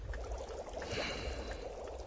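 Water pouring and splashing as a bloodied axe is washed, a steady, continuous trickling and sloshing with a slight swell in the middle, heard alone.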